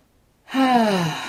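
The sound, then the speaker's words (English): A deep, conscious breath released as a voiced sigh during a guided heart-centred breathing meditation: one smooth exhale whose tone slowly falls in pitch, heard alone after silence. “just take that conscious breath.”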